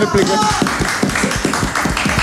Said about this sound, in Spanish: Un aplauso para Pamela.